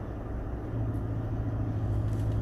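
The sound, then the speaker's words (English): A Ram pickup cruising south along a road on a sunny day, heard as a continuous low engine and tyre rumble that steps up slightly in level early on and then holds steady, with no talking. “as the sun shines right through our windshields on this beautiful trek south on Allentown Road”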